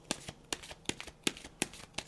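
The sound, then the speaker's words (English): A deck of cards is shuffled in a faint, rhythmic run of soft snaps and riffles, with about six sharper strikes spaced evenly and quieter flicks between them. “just drawing a card for this exciting time.”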